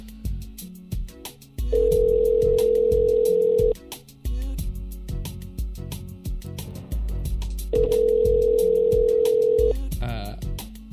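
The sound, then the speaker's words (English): A telephone is dialed and a steady telephone tone sounds in two separate stretches of about two seconds each, with people talking throughout. “Oops, I didn't know you're dialing already.”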